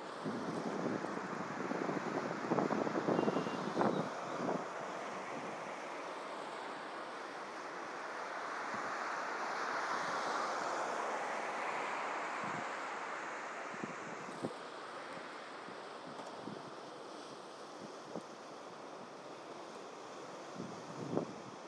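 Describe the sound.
Tidal water surges through the piers of a bridge in a steady, broad rushing roar, with wind noise and a few faint knocks scattered throughout.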